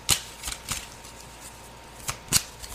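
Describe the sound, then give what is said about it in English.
Tarot cards make a few brief, crisp papery flicks and taps as one card falls to the floor, spaced irregularly over an otherwise quiet background. “What card is this? It just fell on the floor. This is King of Wands.”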